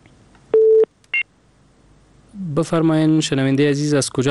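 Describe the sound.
Telephone tones as a caller's line on a radio call-in show is cut off: two short electronic beeps, the second higher and briefer, then after a pause a voice starts talking.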